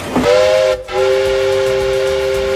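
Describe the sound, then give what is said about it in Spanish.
A new train sounds its whistle: a steady, piercing tone that starts, breaks off briefly, then returns and holds evenly to the end. “que cómo pita esto, de verdad, el tren. Cómo se nota que es uno nuevo y no como los de Oscar Puente.”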